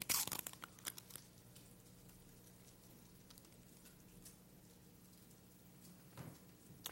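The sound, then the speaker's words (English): The top layer of a communion bread packet being peeled open, with a short burst of crinkly tearing at the start, then near silence, and a soft rustle of the packaging near the end. “And now let's take out that packet and prepare to partake of these elements together. We'll begin by peeling off that first layer and taking hold of the bread.”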